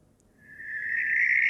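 A barn owl gives one drawn-out, rasping high screech. It swells from faint to loud over about a second and a half and holds a narrow, strained band of pitch alone.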